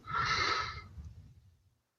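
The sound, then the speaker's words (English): A person yawns with a breathy, airy exhale that trails into a low voiced groan and then fades to silence, heard alone. “Nice, good yawn.”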